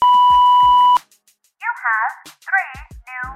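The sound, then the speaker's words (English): An answering machine gives a single steady, high-pitched beep lasting about a second; after a short pause, a voice begins speaking to leave a message. “go ahead and leave your question at the sound of the beep”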